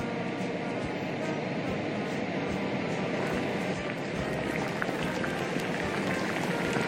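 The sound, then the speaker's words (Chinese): Water boiling hard in a cooking pot for a broth that will later simmer for hours, giving a dense, steady bubbling hiss that stays even and fairly loud throughout. “我们就把水烧开，放进一起煮。”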